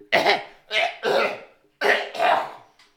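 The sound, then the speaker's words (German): Someone spitting something out with five harsh, throaty, cough-like bursts in two quick groups, followed by a faint trailing one. “Einen Moment bitte. Ich muss, ich muss etwas ausspucken.”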